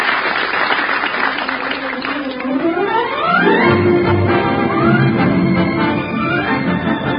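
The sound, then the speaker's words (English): Theater audience gives a great ovation at a play premiere in a little theater off Times Square as the cast takes bows. Dense, steady applause continues throughout, with sustained tonal sounds layered over it. “They've called Betty Lou Gerson to the wing. Now they're joined by Mary McGovern, and the audience is giving them a great ovation.”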